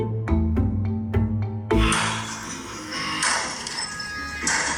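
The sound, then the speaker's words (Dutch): Objects are smashed to pieces in a smash room: a few ringing knocks, then a loud crash that gives way to sustained shattering and rattling debris. “Dus toen kreeg ik als tip om naar een Smash Room te gaan. En dat heb ik gedaan. En dat was een uur lang. Mocht ik alles wat er in die kamer was kort en klein gaan.”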